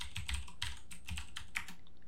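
Rapid typing on a computer keyboard as a web address is entered, a quick, continuous run of light plastic key clicks with no voices.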